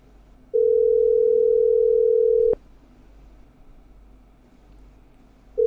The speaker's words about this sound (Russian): Так, идет набор.